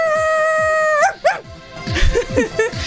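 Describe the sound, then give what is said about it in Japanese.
Dog barking sound effect marking a mock shrine offering: a sustained ringing tone gives way to a loud whining howl and then a quick series of sharp barks and yelps, with no talk. “久々犬神様が吠えました。”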